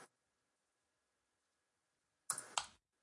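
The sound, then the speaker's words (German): Two sharp clicks of a rotary switch being turned, coming close together near the end of an otherwise silent stretch. “Okay, dann drücke Schalter.”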